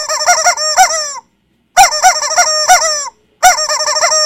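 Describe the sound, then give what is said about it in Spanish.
Loud, harsh clucking and honking calls from chickens, delivered in three bursts of quick repeated squawks separated by short silences. “Y hay una persona que pidió que los pollos le dijeran un taca-taca. Ahí va el pollo.”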